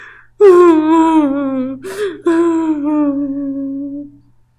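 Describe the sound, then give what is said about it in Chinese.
A voice imitating a mother squirrel crying lets out two long, wavering wails, loud and tonal, separated by a brief catch of breath. “可松鼠妈妈还是一个劲儿的哭。”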